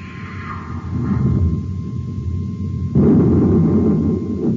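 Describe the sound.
A missile fired in a science-fiction scene: a constant low rumble with a thin, steady electronic tone above it, then a sudden swell into a heavier, louder rumbling roar that lasts to the end.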